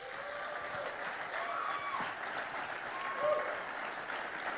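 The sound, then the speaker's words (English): Applause from a church audience welcoming a guest preacher: steady, sustained clapping that fills the whole stretch at an even loudness and swells slightly near the end. “I need you to give him a warm welcome and receive him here at Camarillo Community Church.”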